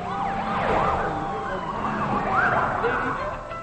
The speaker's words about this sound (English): On the street, two police cars go by.